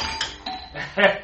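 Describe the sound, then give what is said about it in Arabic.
A doorbell rung repeatedly: several short, bright ringing tones in quick succession, each a little different in loudness, with the last the strongest. “شيل ايدك من على الجرس يا قليل”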